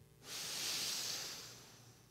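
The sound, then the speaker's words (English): A deep breath drawn in through the nose makes one long, airy hiss that swells quickly, holds steady, and fades slightly toward the end, with no talking. “Use your nose. Take a deep breath in.”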